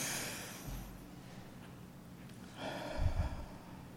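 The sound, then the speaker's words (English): A single deep breath at a morning prayer gathering, drawn in and then slowly let out, soft and airy with a quiet pause between the inhale and the exhale. “So join me in just taking a deep breath.”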